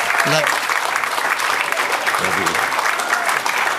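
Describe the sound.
A church audience applauds to welcome a guest speaker, a dense, even clatter of clapping sustained throughout, with a brief voice rising faintly above it.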